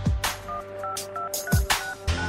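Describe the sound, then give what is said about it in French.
Telephone keypad tones as a voicemail secret code is entered: a series of short, mid-pitched beeps at a fairly even pace, mixed with loud knocks and thumps from handling the phone. “Veuillez composer votre code secret et terminer par”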